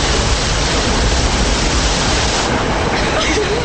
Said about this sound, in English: A massive section of ceiling collapses. in the tunnel, the group stands and watches water that is now flooding in.